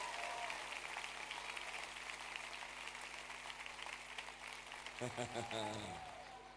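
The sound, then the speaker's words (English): A church audience claps for the Lord in a long, even stretch of many overlapping hand claps, faint and steady, before voices rise near the end. “Give the Lord another hand clap.”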